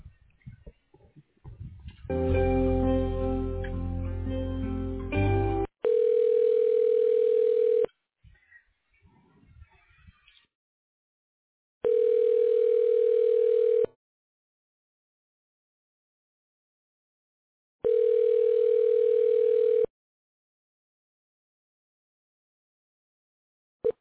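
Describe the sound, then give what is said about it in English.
A telephone line tone sounds while a call is forwarded to a Mitel voicemail system: three steady, mid-pitched tones of about two seconds each, separated by long silences, after a brief burst of other sound. “Your call is being forwarded to a Mitel voicemail system.”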